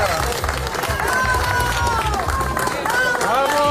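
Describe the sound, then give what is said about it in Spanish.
Crowd applause for rescue workers who pulled a trapped woman from earthquake rubble in Baruta, near Caracas: a dense, steady wash of clapping and crowd noise, with voices heard throughout. “Aplausos al personal de la UME desplazado al país latinoamericano después de recuperarlo.”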